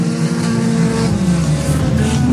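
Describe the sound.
Race cars roar at the start of a race, where one car struggled to get into gear, producing a loud, continuous engine drone with shifting tones.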